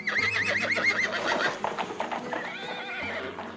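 Horse neighing and hooves clip-clopping as a king rides away from a city: a long, quavering whinny opens, followed by clip-clop hoofbeats under a low steady drone, with no talk.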